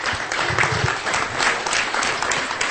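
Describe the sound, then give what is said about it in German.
Church audience applauding to welcome a new family, a full, steady burst of many hands clapping at a lively, even level throughout. “I want you to give our new family a hand. Ich möchte einen Applaus hören für unsere neue Familie.”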